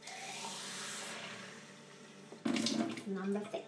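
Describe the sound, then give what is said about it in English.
Tap water gushes into a pan for boiling rice, a steady rushing hiss that slowly thins out and stops, followed by a person speaking. “There. That's the water we need to boil the rice.”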